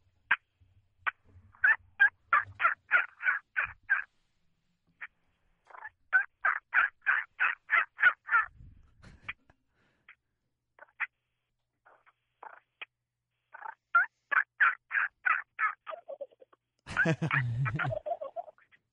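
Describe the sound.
A hand-operated turkey call, worked inside a vehicle, imitates a wild turkey: repeated runs of rapid, sharp yelps separated by pauses, ending in a gobbling rattle.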